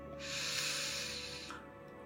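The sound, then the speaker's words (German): One deep breath drawn in through the nose during a guided meditation, a smooth airy hiss that swells, holds steady for over a second, then stops abruptly. “Atme tief durch die Nase in den Bauch ein”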